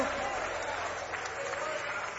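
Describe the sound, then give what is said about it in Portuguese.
A church audience applauds, a steady, dense wash of hand claps that holds at an even level from start to end. “Mais forte aplauso, por favor. Palmas e glória a Deus, igreja.”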